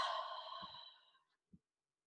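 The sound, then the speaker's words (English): A deep breath out comes as a long, airy exhale that fades over about a second. A few faint low taps follow it, and then there is quiet. “Let it swirl around in there, and then give a big deep breath out”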